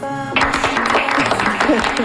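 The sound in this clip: Studio audience applause on a music quiz show: a voice briefly precedes a burst of dense, loud clapping that starts abruptly and continues steadily to the end.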